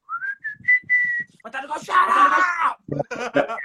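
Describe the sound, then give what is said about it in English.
Person whistling a fast-food jingle in imitation of an African grey parrot that learned it: four quick high notes, the first gliding upward, then people talking. “it learnt the McDonald's theme tune. So yeah. every 5 minutes he'll go,”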